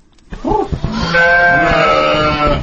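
Sheep and goats bleat in a village farmyard where sheep, horses and other livestock are kept: a few short calls lead into one long, loud, quavering bleat that holds steady before trailing off.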